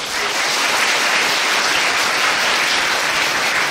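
Audience applause at a Buddhist teaching, a full, dense burst of many people clapping, steady and loud from start to end without voices.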